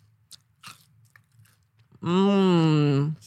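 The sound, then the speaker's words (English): Crisp crunches of light, churro-flavored tortilla chips made with coconut sugar being eaten close up for ASMR: a few sharp, scattered bites, followed by a loud, sustained hummed vocal tone from the eater. “They literally taste like churros. They taste like churro, but in like a tortilla chip presentation. And they're so light and crispy. I'm giving you guys an ASMR chip eating.”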